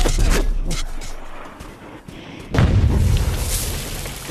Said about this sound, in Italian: Un'esplosione così nella quieta Cremona non la si sentiva da almeno una decina d'anni, dai bombardamenti della guerra. Per fortuna che prima di scoppiare il razzo rudimentale si è giusto alzato di qualche metro da terra